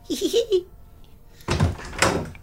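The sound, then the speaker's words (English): A house door opens and closes in two firm, clattering bursts, heard after a brief moment of speech. “what have you come in that door for?”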